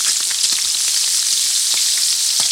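Bacon from a home-butchered pig sizzles in a pan with a steady, dense crackle broken by scattered sharper pops, with no voices over it.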